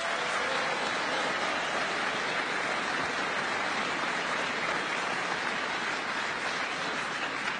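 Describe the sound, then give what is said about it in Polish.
Crowd applause welcoming the Polish prime minister at an official gathering, a dense, steady patter of many hands clapping that holds evenly loud for the whole stretch. “Przywitajmy również serdecznymi brawami premiera, pana Mateusza Morawieckiego.”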